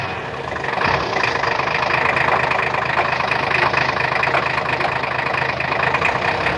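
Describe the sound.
A car engine runs steadily as the car drives on, a continuous even drone and rumble with no voices.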